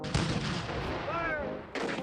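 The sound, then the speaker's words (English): Cannon fire from the Confederate bombardment of Fort Sumter in 1861: two heavy blasts open and close the moment, with a continuous low rumble holding between them. “Fire! The Confederates fire on Fort Sumter on April 12th and 13th of 1861.”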